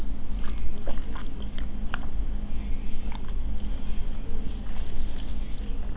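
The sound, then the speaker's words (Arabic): Soft sips and swallowing sounds of someone drinking water during a pause in a spoken lesson, a few faint gulps over a steady low hum, with no talk. “بس اعذروني بس اشرب قليلا من الماء من بعد اذنكم.”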